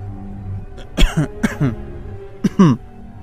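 A few short, harsh coughs, loud and clipped, arriving in quick pairs with a brief pause before the final burst.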